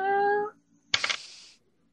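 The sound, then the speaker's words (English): A person's voice imitates a cat's meow in a short voiced tone, followed after a brief pause by a breathy hiss, spoken during a role-playing game. “I'll just meow. I'll just look up at him and go,”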